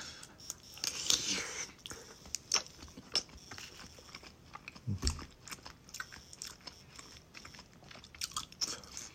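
Someone bites, crunches and chews spicy food. Many crisp, quiet crunch bursts and wet chewing sounds follow one another in an uneven rhythm, with one low thump near the middle.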